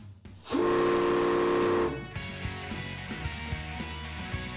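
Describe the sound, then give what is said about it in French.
A steam locomotive whistle from the 2141 heritage railway engine in Kamloops gives one long, loud, steady harmonic blast. It cuts off into a lower mechanical rumble with repeated knocks and clanks. “This beauty is the 2141 steam locomotive and is one of Kamloops' signature attractions.”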